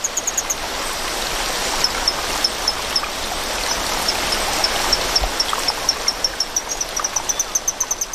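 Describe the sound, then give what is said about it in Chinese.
Rushing stream water flows loudly and steadily where small torrent frogs live, a dense constant roar with a regular series of faint high chirps repeating throughout. “水流的声音还是太大了”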